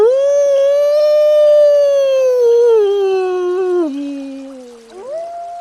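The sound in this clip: A person imitates a wolf howl with a single long, sustained tonal cry, rich in overtones, that holds steady, then sags lower in steps near the end before jumping back up briefly.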